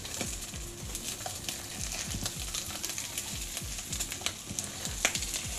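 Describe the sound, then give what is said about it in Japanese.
Pieces of chopped food fry in a pan, giving off a continuous, fairly faint sizzle dense with many sharp crackles and pops, with no voices. “これまた水かな焼いてんね料理してる”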